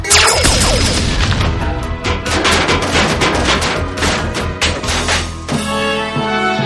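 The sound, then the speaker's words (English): Gunfire and explosions erupt in a fight against Megatron: many dense, rapid bangs and crashes pile up for several seconds before giving way to a sustained tone. “I shot the hell out of that guy! Good job, everyone. Megatron was defeated with only 50 humans killed in the crossfire.”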